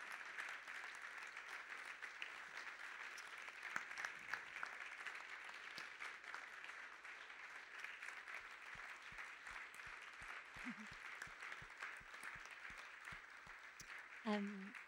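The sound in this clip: Clapping from people in a room during a church gathering, a sustained, fairly faint wash of many hands that holds steady throughout, with a few voice-like sounds mixed in.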